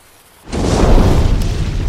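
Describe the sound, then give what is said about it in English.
An outdoor fire being lit goes up in a sudden explosive whoosh after a moment of near quiet, then keeps roaring in a loud, dense rush of sound. “Oh boy, usually it's not supposed to explode like that.”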